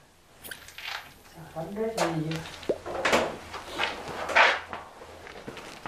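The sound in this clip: An old room's door is opened: creaking, scraping and knocking sounds come in uneven bursts, with people talking throughout.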